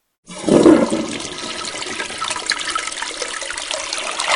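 A toilet that had been reported faulty flushes: a loud gush of water comes first, then settles into a steady rushing and trickling of water that carries on to the end, with no voices.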